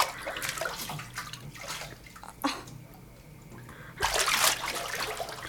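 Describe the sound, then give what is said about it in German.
Water splashing in a bathtub as someone bathes, with irregular sloshing and swishing throughout and a louder, sustained burst of splashing near the end. “Ich bade! Schon wieder? Du warst doch gestern erst in der Badewanne.”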